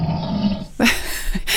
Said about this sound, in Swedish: Jag älskar hur det här björnljudet kommer ut där i slutet som ett vrål.